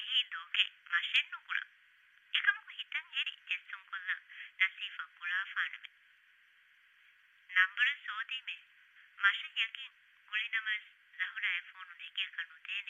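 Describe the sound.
A telephone rings with a high, warbling electronic ringtone in repeated bursts, grouped with short pauses between them, fairly faint throughout.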